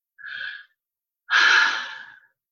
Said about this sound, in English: Let's have this collective breath of